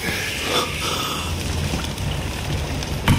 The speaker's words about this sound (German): Bleib du am Feuer, bis du trocken bist.